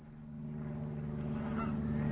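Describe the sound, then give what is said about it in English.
Geese honk by a lake in faint, muffled, steady calls. A low droning tone continues underneath and grows slightly louder toward the end. “You see those two geese there? They're obviously parading to each other.”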